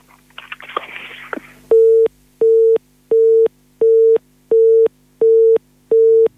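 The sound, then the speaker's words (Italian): Busy tone on a phone line after the call drops: a brief burst of noisy crackle, then seven even, steady mid-pitched beeps in a regular on-off rhythm. “purtroppo è caduta la linea”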